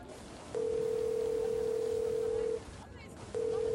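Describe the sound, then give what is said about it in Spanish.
Telephone dial tone while a call is being placed: a steady, single-pitched hum holds for about two seconds, stops briefly, then resumes at the end. “le voy a marcar”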